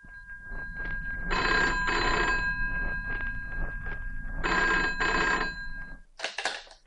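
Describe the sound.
A telephone bell rings twice at a home. Each ring is a loud double burst of jangling bells, with a steady hum underneath and short pauses between the rings.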